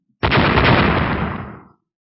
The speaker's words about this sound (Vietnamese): Một tiếng nổ kinh thiên động địa vang lên trong không trung